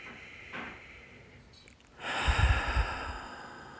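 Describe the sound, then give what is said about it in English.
A deep breath is drawn in softly, then released as a longer, louder, airy exhale. “I invite you to take in some nice, full, deep breaths.”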